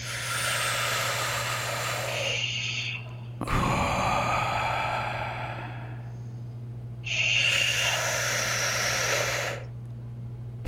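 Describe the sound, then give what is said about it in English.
Deep, slow breathing during a guided relaxation exercise: long, loud, airy inhales and exhales come in three drawn-out stretches separated by short pauses, over a faint steady low hum, with no talk. “let's do these three deep breaths. So big inhale on three, two, one.”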